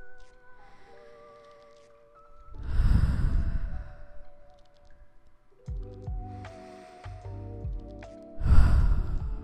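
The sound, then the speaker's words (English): Slow, deep breathing during a guided meditation: two long, audible inhale-exhale cycles with airy, sighing texture, set apart by quieter stretches over soft sustained tones. “Breathe.”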